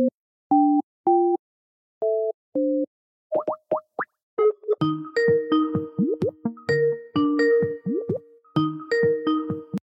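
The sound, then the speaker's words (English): Tones of a Skype call being dialed and ringing. A few short, mid-pitched two-tone beeps come first, then quick rising chirps, then a busier repeating electronic ringing melody of plucked notes, all heard alone. “Based in London, I loaded up Skype and dialed in their number.”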